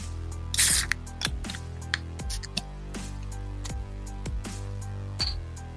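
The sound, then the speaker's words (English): A can of Moosehead Rattler beer is cracked open, giving a sharp pop and a short bright hiss, followed by a series of faint, regular clicks over a steady low hum. “It was a juicy crack out of this Moosehead Rattler.”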